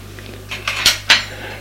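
Dishes and cutlery clink on a serving tray carrying a plate of meat in sauce, a few bright metallic and ceramic knocks rising over a low hum.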